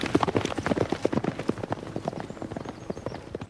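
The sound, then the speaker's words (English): Horses gallop on a racetrack, their hooves producing many rapid, uneven clip-clop beats in a dense continuous patter with no voices. “Horses gallop on the racetrack”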